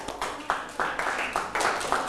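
Classmates in a Thai classroom clap their hands together in a loud, rhythmic pattern, each burst starting sharply and then tapering, repeated several times with short gaps.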